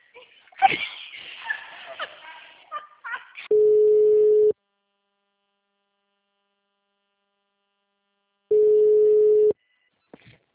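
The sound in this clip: A telephone busy tone sounds after a call is hung up: two loud, steady, single-pitch beeps about a second each, separated by a long silence, after a stretch of people talking.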